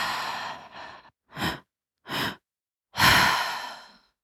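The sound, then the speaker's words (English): Slow, deliberate breathing during guided breathwork for anxiety: a few short, airy breaths separated by pauses, then a longer drawn-out exhale that fades away, with no talking. “holding you as you continue with this breath pattern”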